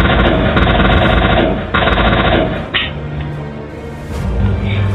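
Automatic rifle gunfire in loud, sustained rapid bursts. A long stream of shots is followed by a short break, then a second stream, a brief lull and more firing toward the end.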